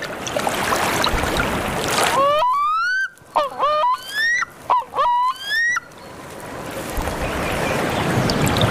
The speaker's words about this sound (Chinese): 等到繁殖期再回到淡水湖。黑喉潜鸟非常善于潜水，